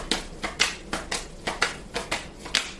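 Tarot cards are shuffled and handled in a quick, regular series of papery snaps and taps, many in a row at a fairly even rhythm, with no talk over them.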